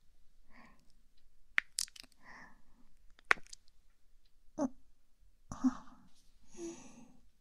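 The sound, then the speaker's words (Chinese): A person bites into food and chews it, with a few sharp crunchy snaps rising out of quiet mouth noises and soft breathing. “就是不知道，尝起来会是什么样的味道呢？那就让我来尝一口好了。”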